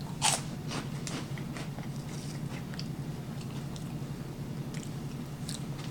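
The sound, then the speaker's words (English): Crunching on Dollar Store cheese puffs: a sharp, loud bite near the start, then many crisp crunches and moist chewing sounds repeating steadily throughout. “Here we go, 3, 2, 1, taste test. Dollar Store snacks.”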